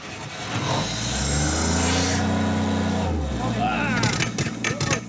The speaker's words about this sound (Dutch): U hoeft alleen op een knop te drukken. Op een knop? En dan gaat die paal automatisch naar onder toe.